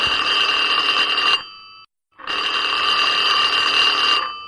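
A telephone ringing with an incoming call: two loud electronic rings, each a bright, steady tone lasting over a second, separated by a short silent gap.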